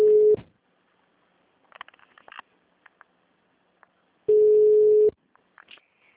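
A telephone rings on a call with steady mid-pitched tones. One tone is cut short at the start, and after a long quiet gap with faint rustles a second tone lasts just under a second.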